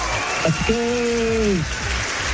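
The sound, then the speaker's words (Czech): Sustained applause during a radio prize announcement, a steady clatter of clapping running under a speaking voice. “To je nekonečný potlesk.”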